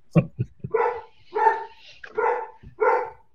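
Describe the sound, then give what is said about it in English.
Dogs bark at home: a few short, sharp sounds come first, then four longer, full-bodied barks spaced roughly evenly, each fairly loud and standing alone without talk over them. “Sorry about the dogs. No need to apologize. We love our dogs.”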